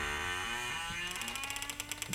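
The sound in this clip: Heavy town gates slowly closing on their mechanism: a low grinding creak, then a steady run of quick, sharp ratcheting clicks, faint overall.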